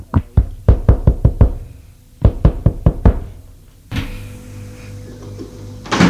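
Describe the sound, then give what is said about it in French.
A hand knocks sharply on the door of a concierge's lodge: a quick run of loud raps, a short pause, then a second shorter run. “Frappe à la loge de la concierge.”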